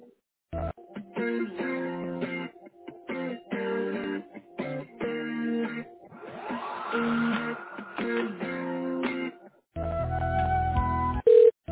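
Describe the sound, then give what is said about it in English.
Telephone line tones as a call is transferred to voicemail: repeating blocks of electronic tones with a rising sweep midway, then a short gap and a final burst of tone at the end. “All right, I'm going to transfer you right now.”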